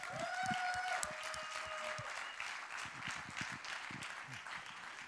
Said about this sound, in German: Und komm, ich gebe doch Ihnen einen herzlichen Applaus und heiße Ihnen willkommen hier im ICF Luzern.